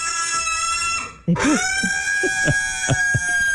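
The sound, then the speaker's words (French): A pig squeals while its hooves are being trimmed: a loud, shrill, sustained scream that cuts off briefly, then resumes just as piercingly. “Les cochons d'habitude aiment tout bien ça. C'est un moment de détente, mais elle, c'est juste, elle est spéciale. Elle fait ce genre de bruit là.”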